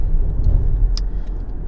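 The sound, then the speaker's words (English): A car being driven home gives a steady, low road rumble and engine drone throughout, loud and even, with one faint short tick midway and no talk. “for the last minute or two that I'm driving, because I'm almost home”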